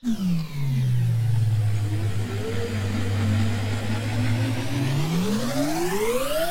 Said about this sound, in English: there we go, riding 500 kilometers per hour in the Autobahn